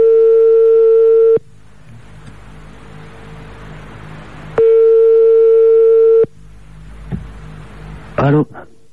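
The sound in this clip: A French telephone ringback tone as an outgoing call connects: two long, steady mid-pitched beeps of about a second and a half each, separated by a few seconds of line hiss, followed by a brief crackling burst.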